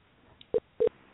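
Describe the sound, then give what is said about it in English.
Telephone call tones sound as a number is dialed: two short, steady mid-pitched beeps separated by a brief gap, preceded by a faint tick, with quiet line hiss in between. “But I got her number punched in. Let's give it a dial.”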